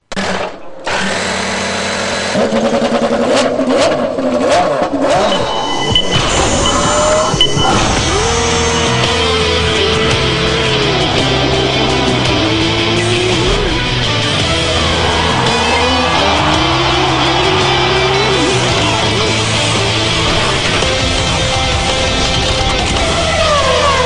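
Jingle built on racing car engine sounds: loud, dense, continuous revving that runs the whole length, with whining engine tones sweeping up and down over a steady roar.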